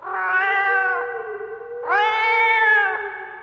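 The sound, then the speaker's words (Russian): A cat meows in two long, drawn-out calls, each steady and mid-pitched, separated by a brief pause, loud and clear with no talking. “«Кот, по-кошачьи!»”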